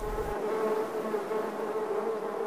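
Bees buzz in a dense, steady drone, a continuous insect hum with a strong low tonal core that holds level from start to finish without pauses.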